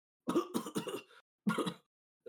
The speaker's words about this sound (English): I'm coughing, and I cough as I say,